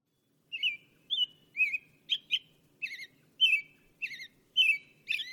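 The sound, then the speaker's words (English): An American robin calls in a steady series of short, bright, warbling chirps, about two per second, clear and moderately loud over a faint low background hum. “So here's the call of the American robin.”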